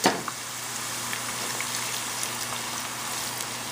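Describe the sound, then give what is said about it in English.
Onions frying in a pan until golden brown: a steady, fine sizzling hiss with light crackle that runs evenly throughout, just after a brief louder burst at the very start. “So we're gonna fry these up until they're really nice and golden brown. So look at the onions here. They're fried really, really nice.”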